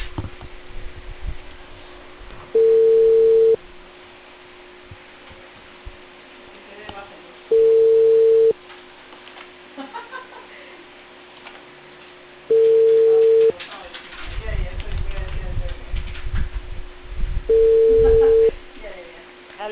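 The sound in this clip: Telephone ringback tone while a call is placed: four steady, mid-pitched tone bursts of about one second each, evenly spaced roughly five seconds apart, over faint line hiss and some low background rumble.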